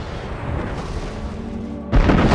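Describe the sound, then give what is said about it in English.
Explosions blowing holes in a planet: a continuous deep, rumbling roar that suddenly surges into a louder, fuller blast near the end. “Great holes are blown out of the planet, which glows red hot beneath its charred surface.”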